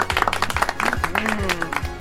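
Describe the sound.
A studio audience claps for a guest, brisk scattered applause with sharp individual claps, while voices talk over it.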